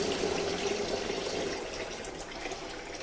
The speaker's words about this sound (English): So the first thing I need to do is to rinse these nettles off.